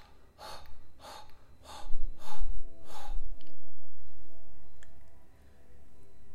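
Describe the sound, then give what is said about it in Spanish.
Breathing in a guided relaxation exercise focused on releasing emotions: a few short, airy breaths in the first half, then quieter with a steady low background tone. “Inhala profundo. y exhala”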